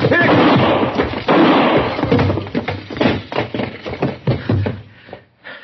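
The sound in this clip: A loud, heavy gunshot rings out in a Western radio drama, filling the opening moment with a broad blast whose rough trailing noise slowly fades over several seconds.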